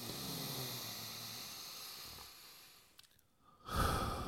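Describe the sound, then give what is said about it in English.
A deep breath drawn in through the nose during a guided relaxation exercise: a long, soft, airy hiss that gradually tapers off, a brief quiet pause, then a louder rush of breath at the end. “we're gonna take a nice deep breath in through our nose.”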